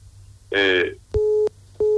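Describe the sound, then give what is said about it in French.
A telephone line sounds its tone after a caller's call drops: two steady, even beeps separated by a short gap, following a brief burst of voice. “Il a été lâché par la ligne, on espère qu'il va revenir.”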